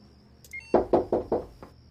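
Knocking on a bedroom window: four firm, evenly spaced knocks and a softer fifth, preceded by a brief high electronic beep over a faint steady hum.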